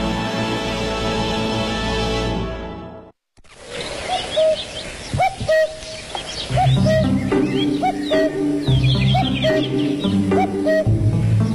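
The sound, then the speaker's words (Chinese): Cuckoo calling among other birds: short repeated chirping notes follow an opening sustained tone and a brief silence, then grow busier and denser, loud and alone. “听见我的叫声了吗？布谷布谷，所以呢，我的名字又叫布谷鸟。”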